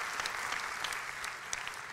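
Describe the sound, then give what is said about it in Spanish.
Church audience applauding, a dense, steady wash of clapping that holds at an even level for the whole two seconds with no clear voices on top. “Si va a aplaudir, hágalo con más ganas, iglesia.”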